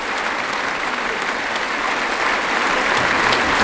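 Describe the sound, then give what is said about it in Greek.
Enthusiastic audience applause after a concert performance, as the performers come back onstage for an encore: dense, steady clapping from a large crowd that holds at an even, loud level throughout with no talk. “Λεωνίδας Καβάκος και ο Μιχάλης Οικονόμου επιστρέφουν στη σκηνή μετά από αυτό το έφθερμο χειροκρότημα του κοινού”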